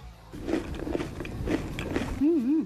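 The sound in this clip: Crispy fries slathered with chiladito relish are bitten and chewed in an eatery, giving a few crunchy bites and wet chewing, with a short voiced sound at the end.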